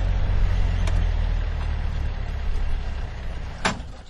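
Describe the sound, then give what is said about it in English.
Jeep driving on scoured beach terrain near the coast, its engine a steady low rumble that eases off toward the end as it comes to a stop, with a sharp knock shortly before the close. “Stop where you can without getting the vehicle stuck, okay?”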